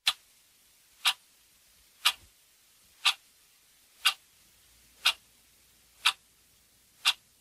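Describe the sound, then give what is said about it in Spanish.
A clock ticks: eight sharp, crisp ticks, evenly spaced about one second apart, faint and alone against near silence. “Y sí, es el clásico sonido tic-tac de un reloj”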